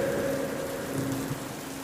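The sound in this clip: Heavy torrential rain pours at night in a continuous, dense hiss with no breaks, steady in loudness throughout, while a faint low sustained tone runs beneath the downpour.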